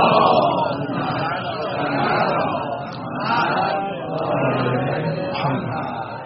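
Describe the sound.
A crowd at a religious lecture about Fatima al-Zahra chants salawat in unison, a dense, sustained wash of many voices that swells and eases a few times over several seconds.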